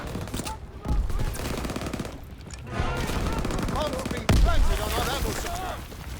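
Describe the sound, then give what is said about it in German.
Shotgun blasts and rapid gunfire in a video game form dense, loud bursts, with a heavy blast standing out near the end. Voices are heard in the mix. “Jetzt kommt die Shotgun. Jetzt kommt die Shotgun. Ach, das ist der Shotgun.”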